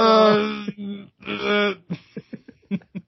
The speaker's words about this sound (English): I like to make like groaning sounds.